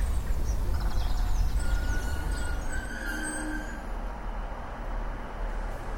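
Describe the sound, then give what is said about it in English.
Train arriving at the historic town of Woodbridge on the River Deben: a steady, loud low rumble with thin squealing tones above it, and no voices. “We arrive by train at the historical town of Woodbridge on the River Deben.”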